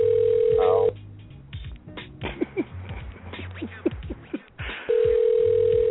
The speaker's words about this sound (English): So her phone's ringing, which tells us that her line's not dead